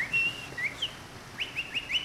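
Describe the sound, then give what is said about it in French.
A tiny bird chirps in a series of short, high, thin tweets, some in quick pairs, clear over a faint background hiss. “Osvaldo entendit un tout petit piaillement”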